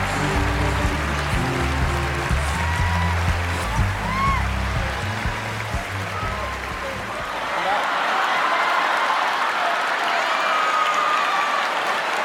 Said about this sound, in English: as music legend Prince announced Beck's win, a small uproar arose on the telecast.